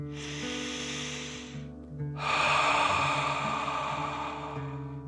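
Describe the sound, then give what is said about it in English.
Slow breathing exercise with air drawn in through the nose and blown out through the mouth: two long, soft, airy breaths, the second longer and fuller, over a faint steady tone. “feel the air coming in through your nose to fill your tummy with fresh air, and then breathe out, pretending fire is coming out of your mouth. Ready? Breathe in and out.”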